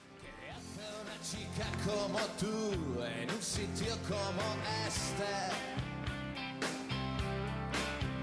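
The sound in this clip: A Spanish-language rock song plays on the radio, sung vocals over guitar, bass and drums at a steady, full loudness throughout.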